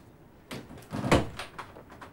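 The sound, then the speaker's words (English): Knocking at an office door: a few sharp, fairly quiet raps spread over about a second and a half, with no voices. “he knocks at the door to Steve's office”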